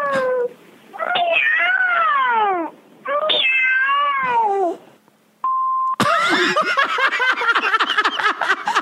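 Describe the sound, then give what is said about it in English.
Cat meows recorded as a phone voicemail outgoing greeting: long, loud, wavering meows that slide down in pitch, then a short steady beep tone, followed by a busier stretch of rapid, warbling sound. “That's her voicemail. That's your voicemail. Outgoing message. Three meows.”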